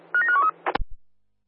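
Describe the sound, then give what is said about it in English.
A quick run of telephone dialing tones, a few short tonal beeps, then a couple of sharp clicks as a call to a unit is dialed up in a dispatch setting, heard alone without voices. “Just stand by, it's dialing up.”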